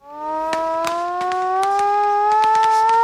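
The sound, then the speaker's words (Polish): Civil defense sirens wail at 5 pm in Piła for the Warsaw Uprising anniversary, a loud, sustained, harmonic-rich tone that slowly rises in pitch throughout, with no talk. “W Pile też punktualnie o 17 zawoły syreny, a mieszkańcy utworzyli żywą kotwicę, znak Polski walczącej.”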